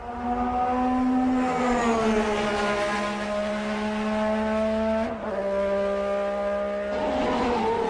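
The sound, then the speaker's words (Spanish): Engine of a 1988 McLaren MP4-4 Formula 1 car, a loud, steady harmonic drone whose pitch sags gently, dips briefly near the middle, then shifts toward the end, with no voices. “va a pilotar el McLaren con el que fue campeón en 1988, el McLaren MP4-4. Y suena así, un sonido que va a emocionar a los nostálgicos.”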